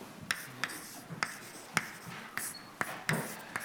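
Quiet writing of an equation on a board during a physics lecture on nematic liquid crystals, a string of about eight crisp taps and short scratching strokes at an uneven rhythm.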